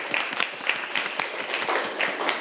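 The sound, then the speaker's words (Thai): Applause for a student in a classroom: many quick claps in a steady, dense patter that stays fairly even throughout. “ปรบมือให้เพื่อนนักเรียนนะครับ”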